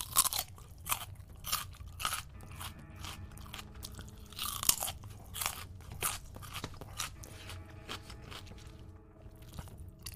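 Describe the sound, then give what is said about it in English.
Crisp crunching of a raw carrot being bitten and chewed, with many sharp, crackly crunches in an uneven rhythm, heard alone without talk. “I might just have a carrot. So have some carrot as well. Carrot ASMR.”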